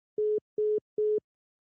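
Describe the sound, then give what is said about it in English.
Phone line tone after a caller hangs up: three identical steady mid-pitched beeps, each short and evenly spaced, heard alone with no other sound. “The caller has hung up.”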